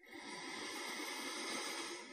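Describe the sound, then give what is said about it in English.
A single deep, slow breath drawn in through the nose: a soft, steady, airy hiss lasting about two seconds, quiet and with no talk. “Take a deep, slow breath in through your nose”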